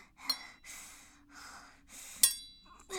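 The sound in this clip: A woman panting: several heavy, breathy breaths in an uneven rhythm, quiet overall, each a soft rushing exhale that swells and fades, with no talk.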